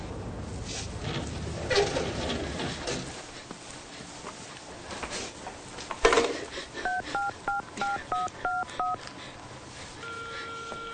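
A touch-tone telephone dialed in a radio drama: a quick run of many keypad tones near the end, following a stretch of low, shuffling background sound effects.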